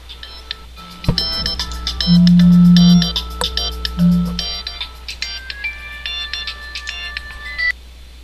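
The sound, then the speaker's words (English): Electronic telephone tones during a prank call: a long, low buzzing ring and a shorter repeat, with clusters of high beeping, melodic ringtone notes before and after. “All right, let's call Eli again.”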